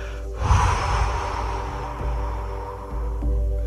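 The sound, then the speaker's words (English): Forceful breath blown out during a chest-breathing meditation exercise: one long, loud, airy exhale that rushes in sharply and holds steady for several seconds before easing off, with no talk. “This time when you breathe out, I'm going to ask you really to blow it out.”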